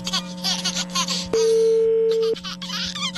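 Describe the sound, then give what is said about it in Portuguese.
A steady telephone tone sounds while a call is being placed. It holds level for about a second, and laughter and lively chatter can be heard before and after it. “Não, vamos ligar pro Léo Dias, lógico. Vamos ver.”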